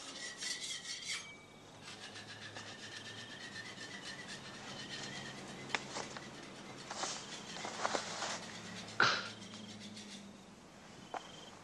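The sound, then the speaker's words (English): Rough rasping scraping recurs in many uneven strokes, with a few sharper, louder scrapes later on and a steady low hum underneath. “It's all that scraping.”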